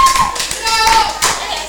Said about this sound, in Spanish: Un aplauso para la señora aquí.